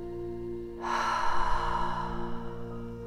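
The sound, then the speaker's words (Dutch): A single deep breath during a guided relaxation exercise: a long, breathy inhale starts suddenly and eases off slowly over a few seconds, over a soft, sustained musical drone. “Neem nog een keer diep adem.”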